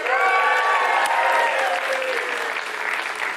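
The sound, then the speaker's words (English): A church audience applauds a welcome during a morning service, with many hands clapping in a loud, sustained wash that eases slightly toward the end. “Our High Ridge family is going to give you a big, warm welcome this morning. Come on, guys.”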